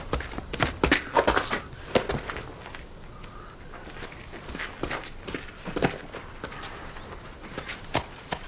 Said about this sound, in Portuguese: Ele corre para dentro do casebre de taipa.